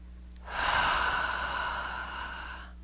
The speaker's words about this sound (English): Okay, nice deep breath.